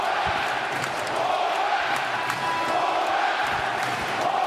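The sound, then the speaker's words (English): Sustained ovation from New York Islanders hockey fans welcoming Bo Horvat at his home debut against the Seattle Kraken, a steady, loud crowd roar with scattered whoops and cheers throughout. “When Horvat made his home debut against the Seattle Kraken, Islanders fans gave him a warm welcome. Ovation for Bo Horvat.”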